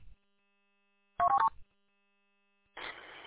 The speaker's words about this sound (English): My radio is a personal contact, and I should be able to send you a text message over the radio.